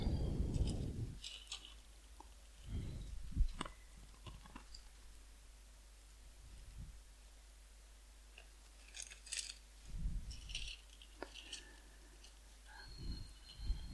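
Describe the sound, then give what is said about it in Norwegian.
Pages of a Bible are leafed through, giving a few faint, brief papery rustles and flicks separated by quiet pauses, with no talking. “Jeg må bare bla litt.”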